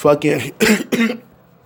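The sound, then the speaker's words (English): Three harsh, throaty coughs in quick succession, loud and close together, each a short rough burst, then quiet as the last one fades. “there goes that cough again.”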